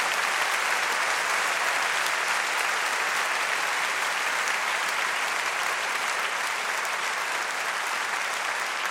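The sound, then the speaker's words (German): An audience applauds at a classical music performance. The clapping is dense and steady and stays at an even, loud level for the whole clip, with no voices above it. “Ich brauche euer Klatschen, okay?”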